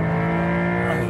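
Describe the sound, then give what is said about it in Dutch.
Six-cylinder boxer engine of a Porsche 911 Targa drones at high revs, a steady, loud, harmonic-rich engine note that holds briefly without pause. “De nieuwe Porsche 911 Targa.”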